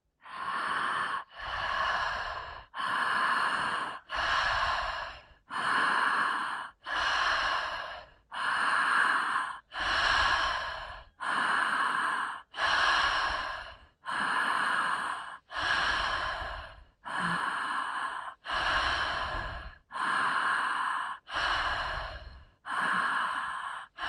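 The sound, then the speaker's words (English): Forceful, rapid breathing from a breathwork exercise: many loud, full breaths in a steady, even rhythm, each a broad rushing puff of air followed by a brief pause, with no talking. “This is a breath to really invite the oxygen in. Still make it as full as you can. Yeah. And let's play. Let's do it. So join in when you're ready.”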